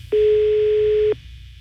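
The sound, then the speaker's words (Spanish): Ringback tone on a telephone line that goes unanswered: a single steady, mid-pitched electronic tone lasting about a second, then quiet with only a faint low background hum. “A ver si nos contestan. Aquí en la línea número 1. Está sonando, mira, no contesta.”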